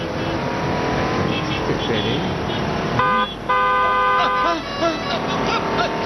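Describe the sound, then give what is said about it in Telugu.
Car horn honking twice, a short blast then a longer one of about a second, over steady engine and road noise with faint talk underneath. “మీరే కంగారుగా నడుస్తున్నారు, horn కొట్టినా మీకు వినిపించడం లేదు.”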